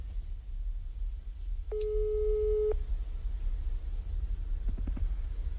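Ringing tone of an outgoing telephone call: a single steady mid-pitched beep about a second long over low background noise, followed later by a few faint clicks.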